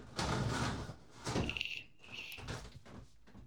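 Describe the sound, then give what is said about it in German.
A window being opened: a few knocks and rattles of the frame and handle, with a brief squeaky tone in the middle. It is fairly quiet and no voices are heard. “ich habe mal eben ein Fenster aufgemacht. So, ein Fenster auf.”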